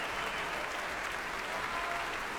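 Applause from the audience at an orchestra concert, a dense, steady wash of many hands clapping at an even loudness throughout.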